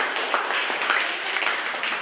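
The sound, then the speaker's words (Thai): Students clap for themselves in a hand-sewing class. Steady, moderately quiet group clapping continues throughout without a clear beat. “เก่งมากปรบมือให้ตัวเองหน่อย”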